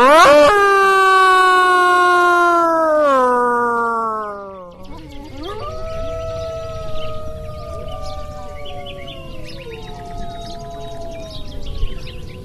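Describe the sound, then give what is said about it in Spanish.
A pack of wolves howling together: one long, steady howl slides down in pitch, then several overlapping howls at different pitches carry on in a continuous chorus. “Y a veces es un concierto increíble, porque cuando todos aullan juntos, parece 80 lobos, porque cada lobo tiene una voz diferente.”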